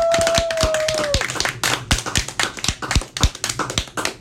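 Students in a classroom whoop and clap. A sustained vocal whoop trails off, then many crisp, sharp hand claps follow in an uneven rhythm.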